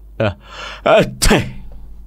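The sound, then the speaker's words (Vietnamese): A sneeze from an old man: short voiced catches of breath build into a sharp, noisy burst, loud and alone. “Quý Bất Quý đột nhiên ngửa mũi hắt xì một cái”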